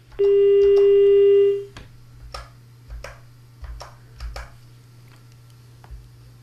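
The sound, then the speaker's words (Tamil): A phone line tone after a caller's call is disconnected: one loud, steady mid-pitched tone holds for about a second and a half, then stops abruptly, followed by a few faint scattered clicks over quiet line hiss. “வணக்கம், இணைப்பு துண்டிக்கப்பட்டுள்ளது.”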